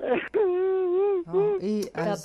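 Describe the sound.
A child cries in drawn-out, wavering high wails, several sustained bursts broken by brief catches of breath.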